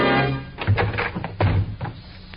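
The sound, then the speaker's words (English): Heavy dull thuds as FBI agents rush a bedroom door: a few low, forceful impacts in quick succession with scuffling and knocking between them, and no voices. “And then, in a quick movement, they rushed the door to Frank Hadley.”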